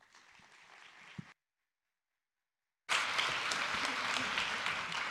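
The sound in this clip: Church audience applause welcomes a guest speaker to the stage. A voice is heard faintly, then a short silence follows, and after that a loud, dense burst of many hands clapping starts abruptly and holds steady to the end.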